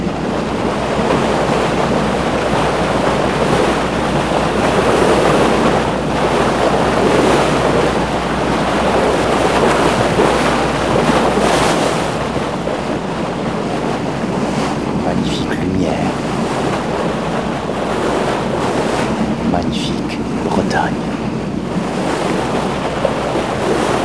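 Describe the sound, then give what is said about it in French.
A small motor launch's engine hums steadily as its bow cuts through an arm of the sea, with a continuous rush of water and wind buffeting throughout. “Le moteur ronronne et l'étrave de la petite Vedette forme ce bras de mer.”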